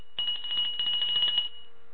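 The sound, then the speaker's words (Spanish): A hand bell rung once during a sermon gives a single bright, high, shimmering ring that holds steady for just over a second and then stops abruptly, with no voices. “Toco nuevamente mi campana.”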